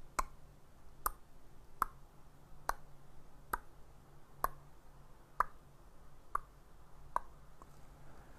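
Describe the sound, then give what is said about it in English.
A voice imitates a ticking clock with quiet mouth clicks, a steady series of about ten evenly spaced ticks, each sharp and brief. “That was my impression of a clock.”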